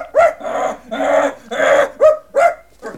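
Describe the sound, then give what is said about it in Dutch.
A small white dog barks repeatedly in a short, uneven series of loud, mid-pitched, harmonic yelps, with some barks clipped and others drawn out slightly longer. “Want hij blaft alles bij elkaar.”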